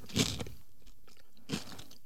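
Bread with a creamy Koro chocolate nut spread is chewed, two crisp crunching bites standing out against faint, softer mouth sounds in between.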